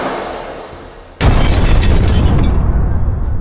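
An explosion tears through a getaway van hit by an ultra wrist blast, a sudden loud boom after a low rumble, then a sustained roaring burst of noise and debris that thins slightly near the end.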